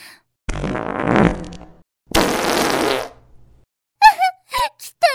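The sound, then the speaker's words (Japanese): Two long, loud, sputtering farts follow one another, each a rough noisy blast lasting about a second, then a few short vocal sounds. “まだまだおなら止まんないんだから。”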